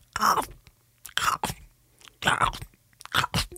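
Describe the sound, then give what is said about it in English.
A voice imitates someone loudly eating crunchy popcorn, with four bursts of wet, crackling chewing and crunching noises separated by brief pauses. “there was a lady behind me who was eating popcorn, and all I could hear for about the first 40 minutes was,”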